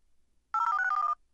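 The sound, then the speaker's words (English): A telephone ring as a voice assistant dials a sushi restaurant in New York City: a single bright, warbling ring lasting about half a second, alone against near silence. “So it actually is dialing the phone number.”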